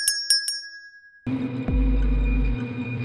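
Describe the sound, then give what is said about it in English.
Automatic door chime of a convenience store rings: three quick, bright bell strikes with a lingering high tone, then a loud, low, steady rumble takes over. “The automatic bell heard in a convenience store rang,”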